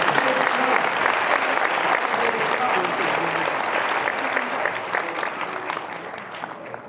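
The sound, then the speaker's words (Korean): Audience applause for guests at a bilingual English–Korean gathering: a dense, steady wash of many hands clapping for about seven seconds, holding an even level before easing off slightly at the very end. “Let's give these guests a hand. 우리 이분들에게 박수를 주십시오.”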